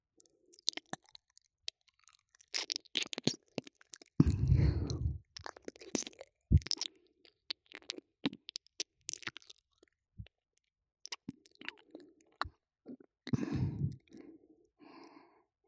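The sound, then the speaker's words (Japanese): Wet licking and mouth sounds of someone savouring something tasty: soft irregular smacks, clicks and slurps mixed with breathy sighs and breathing, fairly quiet throughout. “おいしい。もっと舐めたい。”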